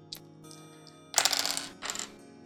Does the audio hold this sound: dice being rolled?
yes